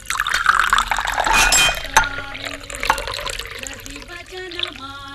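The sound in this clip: Water is poured into a drinking glass to wash down a pill, a bright splashing stream with light clinks of glass, ending in a ringing tone that climbs in pitch as the glass fills.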